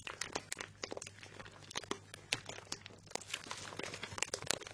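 Crunching of a snack taken from a bag comes as many quick, crisp, crackling bursts in an irregular rhythm, faint throughout.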